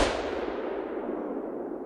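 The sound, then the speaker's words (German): A single rifle gunshot, fired by a woman aiming at a man's head in a German crime drama: one loud, hissing blast that fades out gradually over nearly two seconds. “Ihr Finger legt sich auf den Abzug. Hans Jürgens Kopf liegt genau im Ziel. Sie schießt.”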